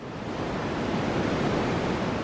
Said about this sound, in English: What you're hearing is a white noise stream. You might find variations based on different pitches and frequencies, brown noise, pink noise, but they all have the same form. Long recordings of a static droning sound,